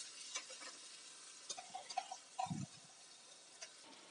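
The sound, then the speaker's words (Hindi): Masala frying in oil in a pan as it is stirred: a faint, steady sizzle with scattered light scraping clicks and one brief low knock. “और इसको हम अच्छी तरह से भून लेंगे हम इतनी देर तक भूनेंगे जिससे हमारा ये मसाला जो है तेल छोड़ने लगे”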